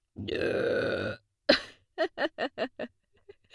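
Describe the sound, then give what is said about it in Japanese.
A woman's burp, long, low and loud, followed by a short sharp vocal burst and a quick string of evenly spaced voiced pulses, with no talking. “今普通にゲップ出た。”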